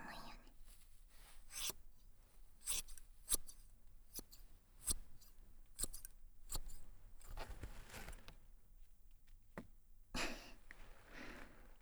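Scissors snip through hair in many crisp, quick cuts at an irregular rhythm, each a sharp metallic click with short shearing noise, fairly faint against a quiet background.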